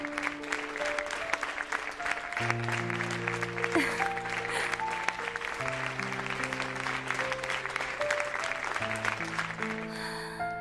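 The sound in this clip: An audience claps steadily and continuously at moderate volume, mixed with sustained, tonal music playing underneath.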